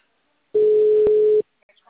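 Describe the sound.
A single steady telephone tone sounds while a call is placed to a client. It is a mid-pitched, unbroken note lasting under a second, with silence before it and a few faint ticks after.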